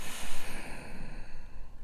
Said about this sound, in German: Und dann mache ich einen tiefen Atemzug durch die Nase. Ich atme ein und durch den Mund aus.